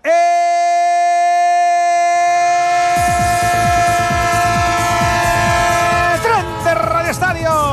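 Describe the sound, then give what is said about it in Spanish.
Rattling train sound effect: a sustained, horn-like chord of steady tones plays throughout. About midway, a fast, loud rhythmic clatter of wheels over rail joints joins it and continues to the end. “El tren de Onda Cero, el tren de las 7, el tren de las 6 en Canarias, el tren que te lleva, te trae, el del traqueteo que no marea”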